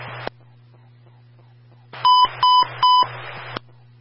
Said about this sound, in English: stand by for the emergency transmission tone.